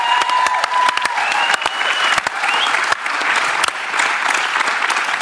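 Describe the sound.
Warm audience applause welcomes a speaker at a church remembrance gathering, a dense, steady clatter of many hands clapping that holds at an even, loud level throughout.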